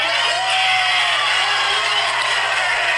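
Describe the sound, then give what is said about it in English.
Audience cheering and whooping: a dense, loud, unbroken roar of crowd voices with shouts rising out of it, lasting the whole stretch. “Come on, man. Listen to that audience. They're like, dude, you're not letting us down.”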